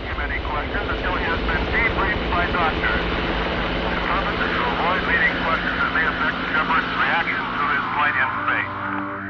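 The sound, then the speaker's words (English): A helicopter lifting an astronaut from the Atlantic Ocean onto an aircraft carrier gives a steady, droning engine noise, with muffled voices talking over it throughout. “A helicopter retrieves Shepard from the Atlantic Ocean and places him on the aircraft carrier Lake Champlain.”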